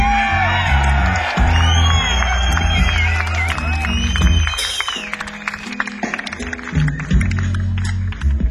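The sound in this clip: A concert crowd gives a loud welcome to a rock musician, with whoops, shrill whistles and yells over a steady roar of clapping and cheering that thins into scattered claps and shouts toward the end.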